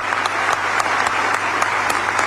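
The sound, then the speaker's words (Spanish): A big round of applause from the audience at a civic event with the mayor and officials. Dense, steady clapping holds at an even level throughout, with a few louder individual claps standing out. “Y un aplauso para ustedes y sobre todo para los que están arriba. Un gran aplauso.”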